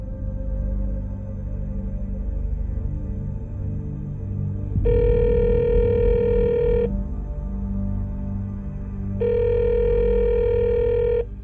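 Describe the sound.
Telephone line tones after a call is hung up: two long, steady electronic tone pulses, each lasting about two seconds with a pause between them, rising over a low, constant hum.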